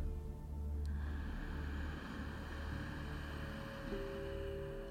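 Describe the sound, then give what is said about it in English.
Slow, deep inhale through the nose, a long soft rushing breath lasting several seconds, set over gentle sustained musical tones. “Together, we'll take a deep breath. Slow and gentle inhale through the nose.”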